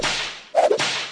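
A whip-crack sound effect gives one quick swishing snap, loud and sharp, over a steady noisy background that runs through the whole moment, with no voices.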